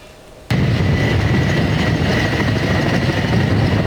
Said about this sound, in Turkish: Helikopterlerin biri gitti, biri geldi.